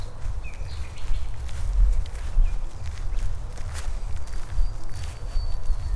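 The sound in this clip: Footsteps walking outdoors at night into darkness, a continuous run of soft, low thuds at an uneven walking pace across the whole stretch.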